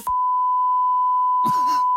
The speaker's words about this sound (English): And we'll get the beep on this